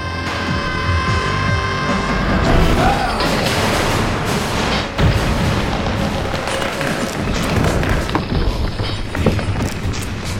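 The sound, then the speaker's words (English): An explosion detonating in a basement: a loud, sustained roar and rumble with dense crashing noise that fills the whole clip, with no voices. “Basement level. Point of detonation. 1 second after detonation.”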